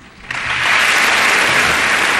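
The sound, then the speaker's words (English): Audience clapping that bursts in after a brief quiet moment and builds into a dense, steady clatter of many hands, continuing evenly to the end. “Do you think people clap in that situation because they don't know what else to do?”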